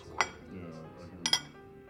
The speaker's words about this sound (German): Er folgt mir in die Küche und ich stelle die Teller in der Spüle ab.